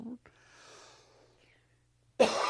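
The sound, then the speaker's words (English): A loud, harsh cough bursts out near the end from someone still ill. Before it comes a brief rasp at the start, then soft, breathy exhaling and near-silence. “excuse me. I'm still coughing.”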